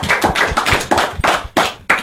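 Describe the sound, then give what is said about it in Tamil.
A classroom of children applauding together, everyone clapping in a series of loud, sharp bursts with an uneven rhythm and short gaps between them. “எல்லாரும் கைத்தட்டுங்க.”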